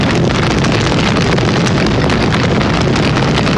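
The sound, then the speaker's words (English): A loud fire sound effect: a continuous roaring rush that stays at a constant level throughout, with a faint crackle in the noise. “Let's cue that fire.”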